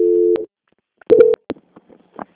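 Telephone call transfer tones: two short, steady, low electronic beeps separated by a brief gap, followed by faint clicks and line noise.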